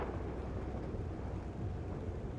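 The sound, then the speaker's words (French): Distant thunder rolls as a storm approaches, an unbroken low rumble with a rain-like hiss that holds level throughout and has no sharp claps. “le roulement du tonnerre au loin. L'orage approche”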